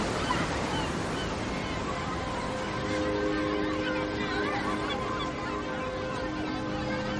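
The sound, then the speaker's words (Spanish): Sea waves wash onto a beach in a continuous broad rush with no distinct breaks, with faint tonal sounds mixed into the steady surf. “Más tarde, en la playa, observan abrazados el mar.”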